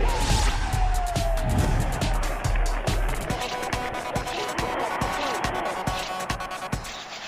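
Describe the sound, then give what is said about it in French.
A radio jingle opening a sports segment: a gliding, falling tone at the start gives way to many sharp percussive thumps, like bouncing balls, over a dense, busy music bed. “Jingle et c'est parti.”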